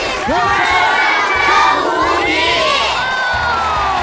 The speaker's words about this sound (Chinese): 欢迎收割机方阵，让我们一起喊出你们的口号： 金曲 收割机。